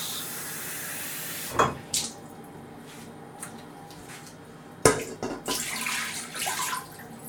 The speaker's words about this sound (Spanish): vasos de agua y uno de lentejas en una olla express. Bueno, empecemos. Un vaso por aquí. A la olla.